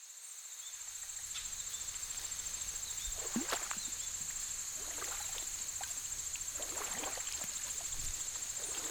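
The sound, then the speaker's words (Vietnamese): Creaking oars of a rowing boat on a river beside a small riverside hamlet at night, soft irregular creaks and splashes set against a loud, steady, high chirring of crickets throughout. “Dưới sông, tiếng kinh kít của mái chèo đang khẽ vang lên.”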